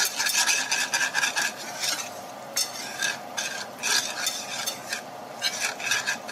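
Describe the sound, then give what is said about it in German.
Stirring a lumpy mixture of flour in a bowl, quick scraping strokes that come in repeated bursts separated by short pauses, fairly loud with no talk. “Ja, komm, rühr halt mal ein bisschen.”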